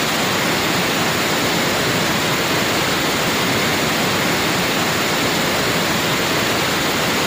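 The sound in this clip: A waterfall on a route of cascades after heavy rain gives off a loud, unbroken rushing roar of falling water, dense and even, with no pauses or changes.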